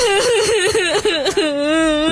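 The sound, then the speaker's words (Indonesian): A person crying loudly, a sustained, wavering wail that rises and falls in pitch with a few brief catches of breath and no words spoken. “Loh, kok makin kenceng sih nangis aja?”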